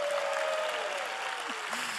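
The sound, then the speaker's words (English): Steady, dense audience applause at a church gathering as two audiences, McKinney and Frisco, give each other a big hand. The clapping stays continuous and even throughout. “So McKinney, can you welcome Frisco? Y'all give Frisco a big hand. All right, now Frisco, give McKinney a big hand.”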